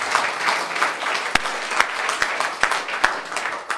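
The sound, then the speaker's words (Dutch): Applause for a newly sworn-in council member at a council meeting. A dense clatter of hands runs steadily throughout, with several louder single claps standing out. “Een klein applausje mag wel voor de nieuwe raad.”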